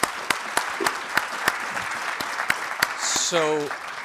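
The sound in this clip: Audience applause welcoming Senator Joe Manchin at a City Club of Cleveland event, a string of sharp, distinct claps at an uneven pace, followed near the end by a brief spoken voice.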